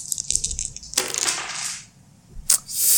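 Dice clatter across a surface during a tabletop role-playing game skirmish roll, with a few bright rattling bursts and a single sharp click near the end.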